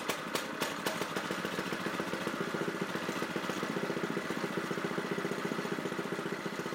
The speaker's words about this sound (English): That sound is a Predator 212, and that is on my mini bike. You could hear the little clutch going around and everything, but that was pretty much fresh after it started